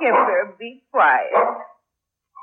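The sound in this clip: Barking from an old dog comes in two strong bursts and a brief third sound. The bursts are harsh and rough, and the dog is loud and alone with no talk over it.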